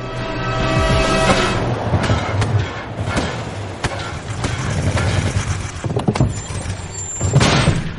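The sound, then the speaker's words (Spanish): Car crashing through museum doors and driving down the entrance steps: a roaring engine with a series of sharp bangs, knocks and clatters, loud throughout and building again toward the end. “El coche vuela rompiendo las puertas del museo, baja las escaleras de acceso y se aleja del edificio.”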